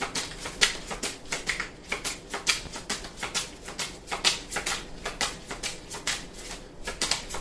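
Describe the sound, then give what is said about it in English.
Cards being shuffled and drawn during a tarot card reading, heard as a continuous run of rapid, crisp papery taps and flicks in a quick, uneven rhythm. “May I have some more cards, please?”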